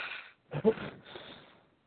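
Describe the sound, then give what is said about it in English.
Heavy, breathy exhales come from a person laughing quietly, in three airy bursts with short gaps between them. The middle puff is the strongest, and the last one trails off into silence. “Sorry, somebody was doing some heavy breathing. Might have been me. I was laughing a little bit quietly, but obviously I was probably exhaling loudly.”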